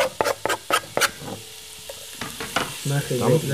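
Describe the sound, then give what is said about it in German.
Food frying in very hot oil, with a run of sharp, loud crackles and spatters early on, then a softer continuous sizzle and a few scraping stir sounds. “Immer besser, wenn das Öl heiß ist, auch richtig heiß.”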